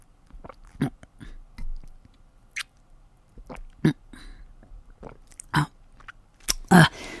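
Someone chewing food, with soft wet squishes and small bites coming in irregular bursts, mostly quiet with a few sharper, louder moments toward the end.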